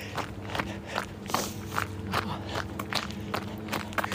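Running footsteps from someone jogging along a lakeside path: a steady, quick rhythm of many soft footfalls over a constant background hiss.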